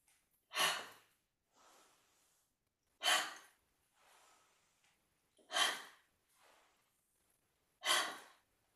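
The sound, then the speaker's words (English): Slow, deliberate breathing from a person during a guided stretching session: four loud, airy breaths, each followed by a softer, fainter one, in an even, unhurried rhythm with quiet pauses between. “Breathe in and let it out.”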